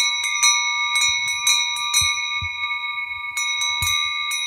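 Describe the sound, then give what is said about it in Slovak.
Sheep bells ring together in a meadow pasture: large sheet-metal bells worn by grown sheep and small cast bells with a gentler tone on the lambs. Many overlapping clangs form a loud, irregular, continuous jangle. “to všetko naraz cengalo. Počuli ste? Tie plechové zvonce nosili veľké ovečky a malé liatovce, čiže liaté zvonce, s jemnejším zvukom dávali na krk jahniatkám.”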